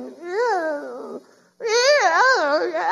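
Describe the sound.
A voice imitating a whining child produces two drawn-out, wavering, nasal wails that rise and fall in pitch, separated by a brief pause, the second louder and longer than the first.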